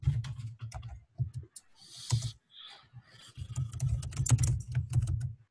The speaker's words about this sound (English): I think I typed it wrong.